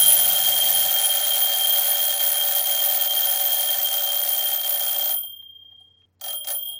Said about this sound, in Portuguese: Toque de campainha do despertador. Ouvem ambos até final.